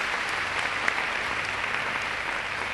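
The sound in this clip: An audience at a self-confidence seminar applauds teachers with steady, even clapping that stays at a constant level for the whole stretch.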